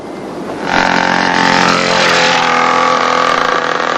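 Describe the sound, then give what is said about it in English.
A dirt bike engine roaring as it nearly runs people down outside a hotel: after a quiet half second the sound jumps into a loud, buzzing, sustained engine roar that holds steady to the end. “a dirt bike nearly mows them down”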